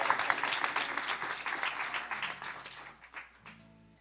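A studio audience in Louisville claps warmly to welcome musician Jake Clemons to a live lunchtime radio show. The dense applause thins out after about three seconds, leaving a faint low tone at the end.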